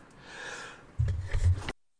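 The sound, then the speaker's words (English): A sneeze: a breathy intake that builds, then a sudden louder, explosive burst lasting under a second before cutting off into silence. “That was a sneeze. We'll edit that out in post, I'm sure.”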